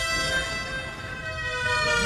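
A British emergency vehicle siren sounds as sustained, continuous wailing tones at moderate loudness, with no voices over it.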